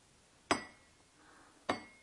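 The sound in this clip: A small glass flower falls down, giving two sharp, bright clinks about a second apart, each ringing briefly before fading, alone against a quiet background.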